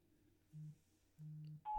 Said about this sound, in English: At the tone, please record.